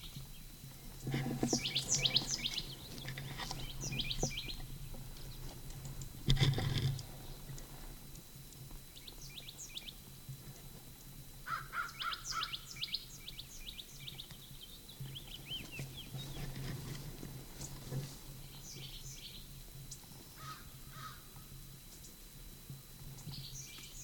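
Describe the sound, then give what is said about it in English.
Bird calls outdoors in an upper gulch: scattered clusters of quick, high chirps and tweets arrive in several bursts over a faint, steady hiss. The whole scene is quiet. “Upper Gulch bird.”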